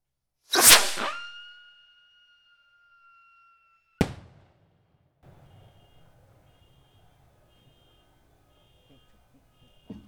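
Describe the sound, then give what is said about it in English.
A La Llorona Rocket firework set off for an Independence Day celebration gives a loud whooshing launch and a long, high whistle. A sharp bang follows, then a long, scattered crackling that fades out. “All right, which one this called? La Llorona Rocket. La Llorona Rocket.”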